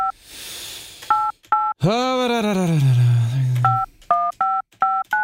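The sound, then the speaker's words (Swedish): Telephone keypad tones: a quick string of short, steady dual-tone beeps as buttons are pressed, interrupted by a long tonal sound gliding downward in pitch before the beeping resumes. “Jag ska stå och ringa pojken också tänkte jag. Trycker på alla, alla knappar samtidigt.”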